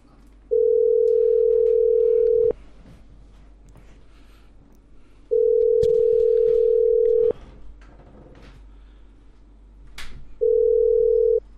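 Telephone tone while placing a call: three long, steady, single-pitched beeps of about two seconds each, separated by quiet pauses of roughly three seconds, with the last beep cut short.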